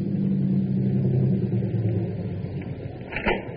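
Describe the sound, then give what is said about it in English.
A car engine running, a steady low rumble held at an even level throughout with no talk, and a brief brighter burst of noise near the end. “You can keep the motor running while I'm gone.”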